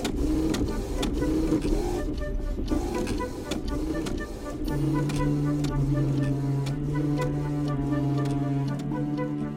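A large, high-precision printing press putting ink on paper, running continuously with a fast, regular mechanical ticking and clatter over a dense rumble, and a steady tonal hum joining partway through.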